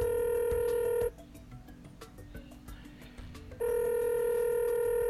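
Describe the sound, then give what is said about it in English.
A telephone being dialed to place a call: a steady, sustained electronic tone gives way to a stretch of quick clicks and blips, then the same steady tone returns, with no voices. “Let's give him a call. Dial him up.”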